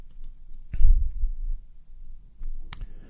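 Computer mouse clicks: two short, soft clicks about two seconds apart, heard alone over a faint low rumble.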